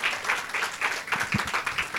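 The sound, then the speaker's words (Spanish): Applause during a product presentation for a laundry product: steady, dense clapping that swells in a few rhythmic surges, moderately loud throughout. “Así es, le damos el aplauso porque a todos nos beneficia”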